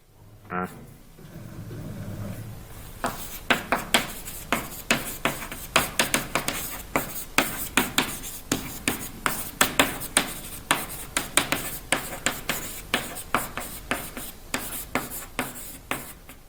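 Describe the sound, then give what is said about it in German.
Handwriting of a title, many short scratchy pen strokes in a fairly regular rhythm after a brief rustle and thud at the start, moderately loud and with no talk. “schreiben wir erstmal den Titel hin”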